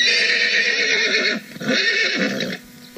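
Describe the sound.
A pony whinnies in a loud, wavering neigh, pauses briefly, then gives a second whinny that trails off.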